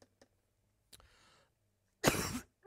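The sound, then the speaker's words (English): A single loud, harsh cough bursts out near the end, preceded by a few faint, scattered rustles and a soft breathy sound in otherwise quiet surroundings. “What I wanted to do, and it might just help me today, too, with my cough.”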